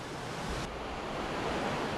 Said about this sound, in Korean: 거센 계곡의 물소리를 들으며 무사히 볼일을 마쳤습니다.